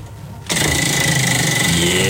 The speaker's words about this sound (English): Can we just get a sound effect of the spinning wheel?